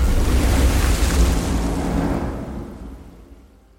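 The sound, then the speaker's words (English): A burst of water surges as a broad, loud rushing roar that holds steady for about two and a half seconds, then gradually fades away toward the end. “And with a burst of water,”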